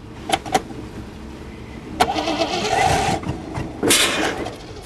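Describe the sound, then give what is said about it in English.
A battered old banger's engine cranks and revs: two short sharp bursts, then a rough sputtering roar lasting about a second, and another loud burst near the end. “And again, I'll rev it.”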